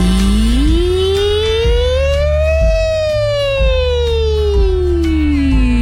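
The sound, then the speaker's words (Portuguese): A voice imitates an ambulance siren during a vocal exercise, holding one long wailing glide that climbs, peaks near the middle and slowly falls over about six seconds, loud over a low backing with regular soft beats. “Isso é uma ambulância.”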